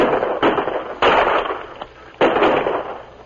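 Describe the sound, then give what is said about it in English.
Rifle gunfire in a dramatized canyon ambush on soldiers: several sharp, loud cracks with noisy, lingering tails, fired in an uneven sequence with no voices. “Before the surprised soldiers could return the fire, 4 of them were seriously wounded. As the other 2 sought cover, Luke brought them down.”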